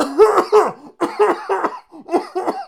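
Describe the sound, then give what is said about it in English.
Coughing and throat clearing, as if something is caught in the throat: several rough, voiced bursts in three short clusters, loud and alone, with brief pauses between them. “Oh, sorry, that was weird. I just had something in my throat.”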